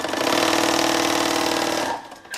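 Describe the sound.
A large sewing machine stitches fabric pieces for umbrella canopies in an umbrella workshop. Its fast, steady mechanical rattle and whir runs loud and alone, then slows and fades during the final half-second.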